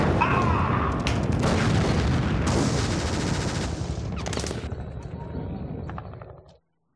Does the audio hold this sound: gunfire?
yes